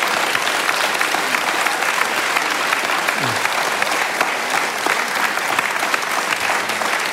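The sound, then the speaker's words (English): An audience clapping after a speech, dense and sustained applause that holds at a steady, loud level from start to finish. “just pause clapping for a second.”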